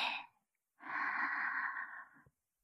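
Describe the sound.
Slow inhale during a guided relaxation breathing exercise. A short breathy sound fades, then a sustained, soft, airy intake of breath lasts about a second and a half before stopping.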